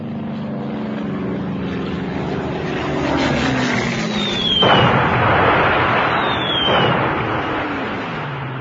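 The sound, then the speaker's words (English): Aircraft engines drone during a wartime air raid on a flat, then two descending whistles of falling bombs, each followed by a loud roaring explosion. “I woke up the day Audrey's flat was bombed.”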